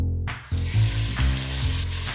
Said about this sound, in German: Die fein gewürfelten Lammherzen werden in Butterschmalz angebraten.